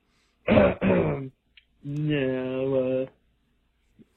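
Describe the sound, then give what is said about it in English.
Throat clearing: two rough, noisy bursts, then a longer voiced, tonal rumble lasting about a second, fairly loud against near silence. “Clearing up. Clearing the throat.”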